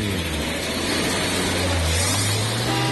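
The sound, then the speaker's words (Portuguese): A Chevrolet Chevette car engine runs with a loud, steady, low drone whose pitch rises slightly partway through, with no voices. “Coloca a chave da ignição, meu jovem. Acelera”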